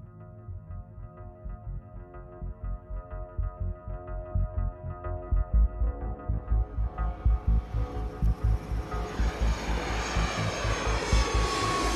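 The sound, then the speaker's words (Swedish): Steady engine drone of an airliner on a passenger flight back to Stockholm, with low throbbing pulses that grow louder and a rising hiss that swells toward the end. “Vi sätter oss på flyget tillbaka till Stockholm.”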